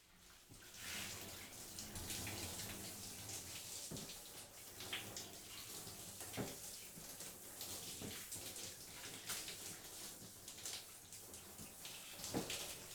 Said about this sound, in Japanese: シャワーの水を足して全体的に髪を濡らしますね。